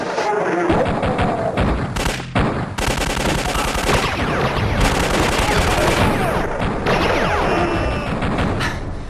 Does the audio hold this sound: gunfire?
yes